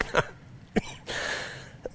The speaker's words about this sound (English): Now, don't everybody ask me why I'm coughing, okay? This is the first time I've coughed.